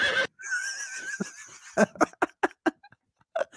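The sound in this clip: A pony whinnies: a long, high, wavering call held for over a second, followed by several short, sharp, breathy bursts in an uneven rhythm before it falls quiet.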